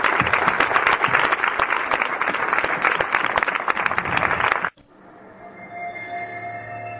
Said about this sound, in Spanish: Por tanto, fuerte aplauso para todos vosotros.